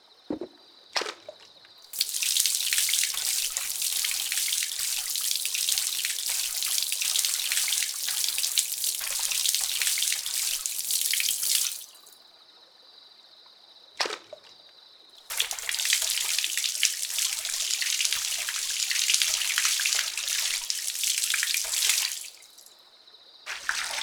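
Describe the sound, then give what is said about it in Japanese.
Water runs steadily to rinse hair during a hair wash, in two long, loud bursts of hissing spray separated by a quiet pause with a few brief knocks. “これから頭を洗い流させていただきます”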